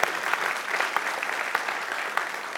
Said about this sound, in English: So, we should all clap, thank you.